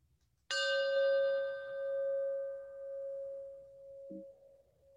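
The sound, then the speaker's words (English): A meditation chime is struck once and rings with a clear, steady tone and bright overtones. It fades slowly over several seconds, with no talk. “As we listen to the chime, let us remember our connection to each other and the world around us.”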